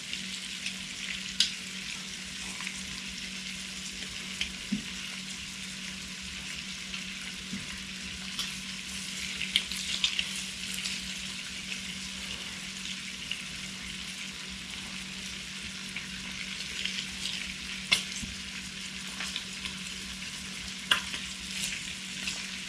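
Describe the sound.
Cajun shrimp sizzle in a pan and are turned with a spatula: a steady, dense hiss of frying, broken by occasional sharp clicks and scrapes, with no talk.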